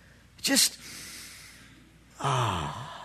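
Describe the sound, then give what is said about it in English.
An audience taking a deep breath together: a short, sharp intake, then after a pause a longer, louder breathy rush that fades slowly, with no talk over it. “But I'd like you to take a deep breath.”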